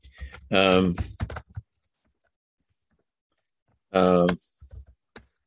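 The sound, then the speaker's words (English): Typing on a computer keyboard, with short bursts of quick clicks and taps separated by a long silent pause, along with brief voice sounds. “let me type this in.”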